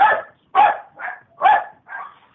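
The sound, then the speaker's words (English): Dogs bark five times in a quick, uneven sequence, alternating sharper, louder barks with slightly softer ones, with no other sound between them. “You need to feed your dogs or something. You know, let them have that postman. Let them have that postman for lunch.”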